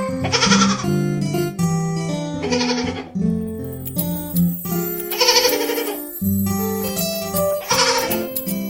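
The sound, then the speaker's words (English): A baby goat bleats four times, loud wavering cries spaced a couple of seconds apart over a steady tonal musical backing. “Baby goat, baby goat, yes, Mama.”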